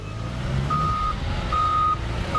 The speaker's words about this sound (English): At the Department of Public Works yard on Frontage Road, snowplows and salt trucks drove in, loaded up, and drove out.